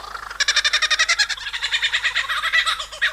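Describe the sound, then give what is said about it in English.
A male lyrebird calls to attract a mate, pouring out a rapid, rhythmic series of bright, ringing whistled notes that pulse steadily and shift slightly in tone partway through, loud and alone. “eavesdropping as a male lyrebird starts showing off to attract a potential mate”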